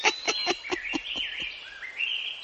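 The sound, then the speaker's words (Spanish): Hungry newly hatched crow chicks chirp in a quick series of several short, sharp calls over a thin, high, wavering whistle-like tone that climbs toward the end. “¡Caramba, pero qué hambre tienen! No acaban de salir del cascarón y ya están desesperados por comer.”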